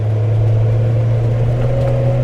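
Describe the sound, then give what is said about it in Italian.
Trucks and other heavy road traffic pass close by at a busy intersection, making a loud, steady, low engine drone with a constant hum that holds unbroken throughout. “Alcuni camion ci passano vicini.”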